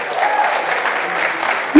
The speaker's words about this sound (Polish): Wielkie brawa dla was. Jeszcze raz wielkie brawa.